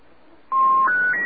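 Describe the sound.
Telephone keypad dialing tones as a phone call is placed: three steady beeps in quick succession after near silence, each a little higher in pitch than the last.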